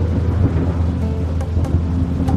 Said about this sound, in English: The little island of Otochi Tsveti Ivan was caught in a tempest. A tempest is a really big storm.